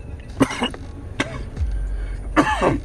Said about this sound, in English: Mick, I'm still choking.